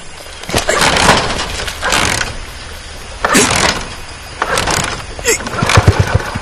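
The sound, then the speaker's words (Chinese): A worn-out old car's engine is cranked repeatedly and fails to catch, giving several rough, churning bursts of a second or so separated by short pauses, loud and uneven, with no steady idle ever taking hold. “这破车又发动不起来了”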